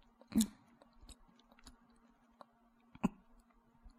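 Soft chewing of food during a meal: faint, irregular mouth clicks with two louder crunchy bites, one near the start and one near the end, and no talk.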